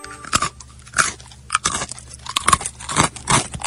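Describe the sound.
Crunchy chewing of dried clotted cream: a long run of crisp, crackling bites and grinding chews at an uneven rhythm, fairly loud, with no talk.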